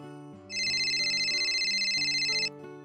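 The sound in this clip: A phone rings with a bright electronic ringtone that holds steady for about two seconds over a low, steady tonal backdrop, then cuts off.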